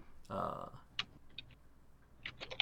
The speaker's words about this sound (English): I'll type that in manually then.